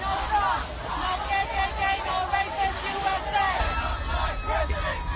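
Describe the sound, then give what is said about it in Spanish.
A street protest crowd against Trump in Miami at night makes a continuous babble of many voices talking, with occasional shouts and whoops rising above it. “Este es el momento, o este es el sonido de una de las protestas en Miami.”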